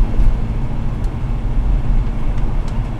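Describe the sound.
Steady road rumble inside a moving car, a dense low drone with a broad hiss above it. It holds even in loudness with no voices.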